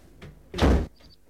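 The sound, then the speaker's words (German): A door swings shut with a single solid slam, preceded by a soft knock as it starts to move. “Soll ich die Tür zumachen?”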